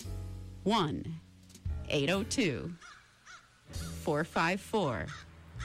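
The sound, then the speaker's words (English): Crows cawing in the woods of Plainfield, Vermont, giving a run of harsh, hoarse caws in uneven bursts, some single and some paired, with short gaps between them. “I'm right here in Plainfield, Vermont, looking out at the beautiful woods, listening to the crows”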